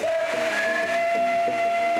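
A coal- and water-fed steam locomotive whistle sounds a steady, sustained tone through the whole clip. A brief, higher second tone joins partway through, over a low train rumble.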